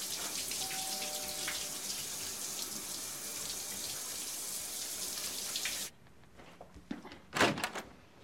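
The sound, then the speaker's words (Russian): A door being opened after a shower: steady running water stops abruptly, and after a short quiet gap a door sounds with a brief loud burst of knocks and scrapes. “Одев халат, он открывает двери.”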